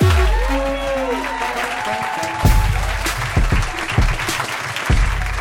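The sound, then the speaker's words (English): Applause from a comedy audience for a comedian, a steady wash of clapping with a few louder swells breaking through. “Give it up for Ted Alexandro! Yay!”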